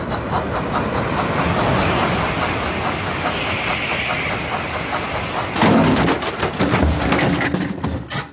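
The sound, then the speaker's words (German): A Transrapid train 3010 passing on track 3 gives a steady, loud rushing rumble with hiss, turning rougher and more clattering in its last few seconds. “Und da überholt ebenfalls auf Gleis 3 der Transrapid 3010 von Shanghai Hauptbahnhof nach Stuttgart 21.”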